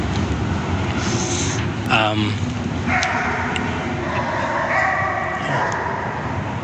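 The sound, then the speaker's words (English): A dog barks loudly near a highway, letting out one sharp, harmonic-rich bark followed by a few more strained calls over a constant roar of traffic, with a person talking throughout. “No, that is a dog. Wow. That dog doesn't sound too happy.”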